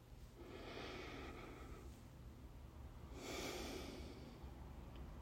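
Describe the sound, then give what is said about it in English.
A slow, deep breath taken by a person, heard as two soft, airy breath sounds, each lasting about a second and a half, very faint and alone. “Let's just take a pause and take a nice deep breath.”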